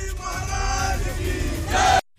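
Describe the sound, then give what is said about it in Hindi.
A crowd shouts slogans at a protest in a Ghatkopar housing society over a Bakrid goat sacrifice. Loud massed voices chant and yell continuously, swelling near the end before cutting off abruptly. “विरोध हुआ, police पहुंची, BJP नेता किरीट सोमैया नारे लगाते आ गए।”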